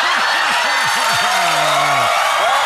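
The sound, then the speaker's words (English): An audience cheers and applauds in a dense, loud, unbroken wash of clapping, with voiced whoops rising and falling through it. “The audience clearly loved it, man.”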